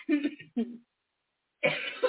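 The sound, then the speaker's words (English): A person coughing: a few brief, harsh, voiced bursts, then a silent pause before another cough. “I apologize for this cough.”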